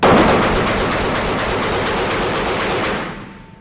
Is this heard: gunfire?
yes